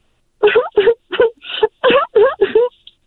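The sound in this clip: A voice imitates a lemon crying with a rapid series of short, wailing sob-like syllables, loud and alone, ending in a small trailing whimper.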